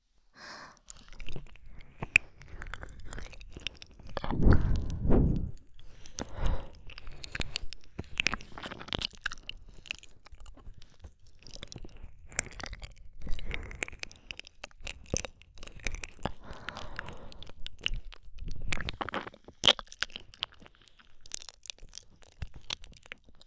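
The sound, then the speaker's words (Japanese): Tongue slowly licking the whole ear in an ASMR recording: many irregular wet, crackly clicks, smacks and rasping strokes, soft to moderate, with no talking. “耳全体を舌でゆっくりと舐め上げていきます。”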